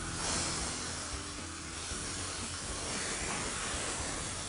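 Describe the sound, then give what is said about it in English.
Fish frying in a non-stick pan gives a continuous, faint sizzling hiss that stays even and unbroken throughout. “So I'm starting to hear my fish come up here. I think these are ready to turn now. So, yep, there we go. Give them a quick turn and cook them on the other side.”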